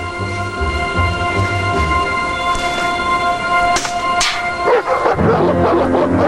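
Two large dogs bark while running toward a man. A few sharp barks burst out near the end over a steady sustained musical backdrop.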